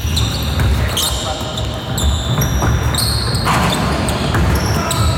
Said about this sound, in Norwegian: Basketbane. Det jo lyden av en idrettsarena. Ja, det basket spesifikt, og det jo den der skvikelyden